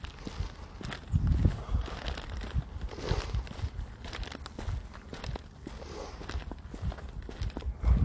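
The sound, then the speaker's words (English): Footsteps walk along a route at a steady pace, each step a soft, faint crunch repeating many times over light background noise. “Man, I'm taking forever walking this route.”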